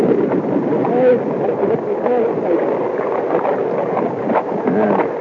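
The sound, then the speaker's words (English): Water rushes and gurgles along the hull at the waterline of a sailing vessel under way near Dominica. The wash is dense and continuous, with a low murmuring churn and no pauses. “Isn't that a great sound? This is recorded. I dropped the mic down near the waterline, and this was recorded while we were sailing between Dominica”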